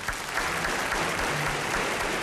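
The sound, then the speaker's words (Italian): Applause from an audience honouring the first woman graduate, dense and steady clapping that holds at an even level from start to finish. “Applauso alla prima donna laureata.”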